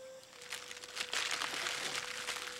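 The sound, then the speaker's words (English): Crinkling of a wax paper wrapping being crumpled up by hand, a dense, continuous papery crackle that builds slightly louder midway and keeps rustling to the end, with a faint steady tone beneath. “Hoke crumples up a wax paper wrapping and hands it to Miss Daisy.”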